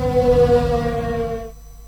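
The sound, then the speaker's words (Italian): The historic, original factory siren of a steelworks, once sounded at noon, gives a loud, steady, low wailing tone rich in harmonics that holds level and then cuts off abruptly near the end. “Con l'autentica, originale, storica sirena delle acciaierie.”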